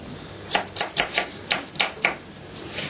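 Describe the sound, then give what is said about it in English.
Rapid knife chopping of food on a cutting board: a quick run of about seven crisp, sharp chops in an uneven rhythm, clear and fairly loud against low background noise. “When you teach children to cook, tell them slowly, don't chop so fast like me, huh?”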